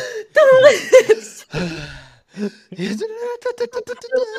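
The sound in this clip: A voice imitates a narrator's dramatic breath, with gasping, breathy vocal bursts broken by brief pauses and a few voiced, half-laughing sounds.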